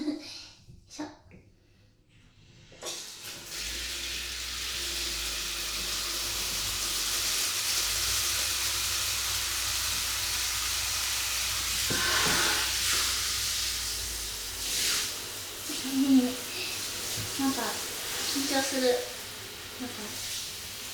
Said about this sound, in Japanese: お風呂寒すぎるので、ちょっとお湯を出して温めます。